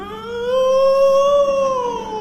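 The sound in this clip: A voice imitates a wolf howling around a villa set among mountains and water, one loud sustained tonal howl that rises gently in pitch, holds, then sinks slightly as it fades, heard alone.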